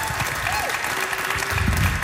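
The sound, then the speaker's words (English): An audience at a comedy festival show bursts into full, dense applause that stays steady and strong throughout, with faint traces of voices inside the clapping. “Full round of applause.”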